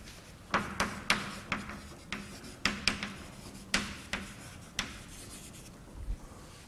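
Chalk-like writing on a board during a physics lecture: a brisk run of many sharp taps and short scratchy strokes in uneven rhythm, moderately loud, with no talking.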